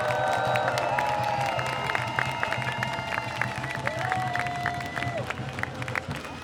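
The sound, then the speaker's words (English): Applause from a protest crowd at the Concertgebouw, with a steady wash of clapping and crowd voices mixed in, continuing throughout. “But can you please give a warm round of applause to Medhat, who is here representing PGNL and Utrecht for Palestine. Louder, he deserves it.”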